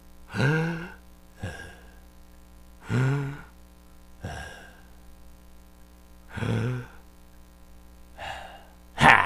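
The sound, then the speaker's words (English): A person takes deep, voiced breaths: three loud sighing breaths spaced a few seconds apart, each followed by a softer breath, over a steady low hum. “Let's take three big breaths and think of three good things.”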